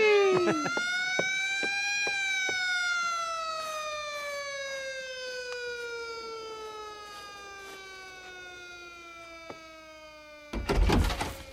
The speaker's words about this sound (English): And turn the siren wide open.